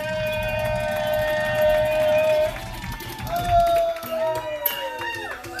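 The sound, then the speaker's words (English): A comedy show audience cheers and claps for a comedian coming to the stage, a loud crowd roar beneath a wailing, siren-like sound effect whose sliding tones rise and fall. “Start clapping for me right now. Start clapping for me right now. Help me welcome to the stage my motherfucking homeboy. Let's give it up for the homeboy who came to party.”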